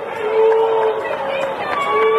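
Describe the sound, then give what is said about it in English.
Crowd booing a speaker on stage over the Marquee Network, a dense, sustained mass of low voices droning together without pause, loud and steady for the whole stretch. “What do you have against the Marquee Network? Believe me, you won't be booing about that in a year.”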